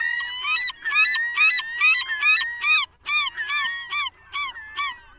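Bird long call recorded at Protection Island National Wildlife Refuge: a loud series of many harsh, honking harmonic notes in rapid bursts, broken by a couple of brief pauses, with no talk.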